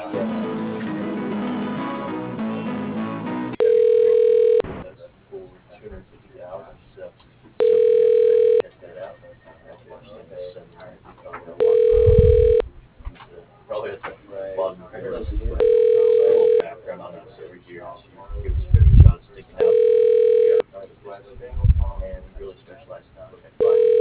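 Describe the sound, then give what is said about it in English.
Telephone ringback tone plays while a call connects to an office phone extension: steady tone bursts repeat at an even pace, roughly every four seconds, with quieter background sound between them and a short stretch of other sound at the start. “Please hold on while I try that extension.”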